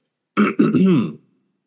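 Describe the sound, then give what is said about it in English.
A person clears their throat before tasting gin: two short, voiced, gruff bursts, the second longer, then silence. “Clear my air passage real quick.”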